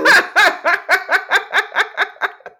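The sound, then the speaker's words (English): A parrot calls in a quick, steady run of many harmonic, laugh-like bursts. The calls are loud and heard alone, and the last one is shorter and fainter. “It sounds, Stephanie, like that was his parrot, Biggie Pop.”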